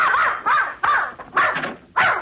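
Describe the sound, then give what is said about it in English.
A dog barks five times in a quick series of loud, tonal barks with short gaps between. “I came for Mrs. Pondecker's dog to take him for a walk. Here he is, and he's all yours.”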